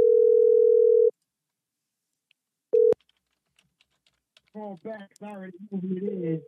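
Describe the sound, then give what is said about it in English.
A phone call back to a caller: a steady dial tone holds for about a second, then silence and a short matching tone, followed by a voice on the line that begins speaking. “Going to give her a call back because I already know who it is.”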